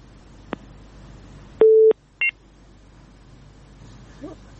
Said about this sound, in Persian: د تماس قطع شوی ده